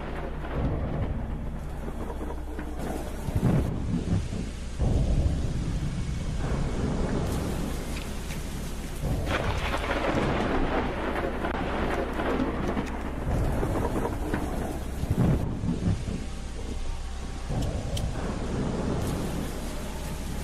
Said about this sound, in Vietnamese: Trên bầu trời, mây đen bắt đầu vần vũ, rồi mưa đổ xuống. Cũng không ai biết ngoài kia sự thể nó ra làm sao, chỉ biết rằng là đêm nay mưa gió sấm sét kinh khủng lắm.